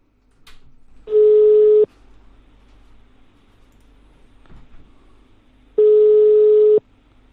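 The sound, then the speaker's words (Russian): A telephone is redialed after the other party hangs up. Two long, steady, mid-pitched ringing tones sound about four seconds apart over faint line hiss. “Бросил трубку опять. Еще раз набираем.”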